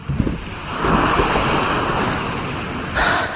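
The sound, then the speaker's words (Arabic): Sea waves break against the rocks below the seaside corniche at Beirut's Raouché rock, with wind blowing over the microphone. A continuous rushing surf roar swells up twice, with a fainter lull between the surges. “شافت الموج عم يضرب بالصخر.”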